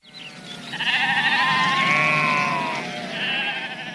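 Sheep bleating in a flock: a long, loud, wavering bleat followed by a shorter second bleat, with no voices.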